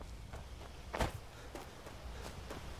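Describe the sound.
A video game character runs toward the sanctuary just outside Falkreath with faint, quick footsteps. A few soft steps fall in a loose rhythm, and one stands out louder than the rest.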